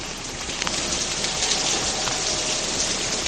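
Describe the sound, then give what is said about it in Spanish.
Steady rain falls on city streets in Seville on a morning: a dense, even hiss of raindrops that stays loud and unbroken throughout, with no clear bell strokes standing out. “Sonido de lluvia en las calles de la capital mezclado con las campanas de la catedral.”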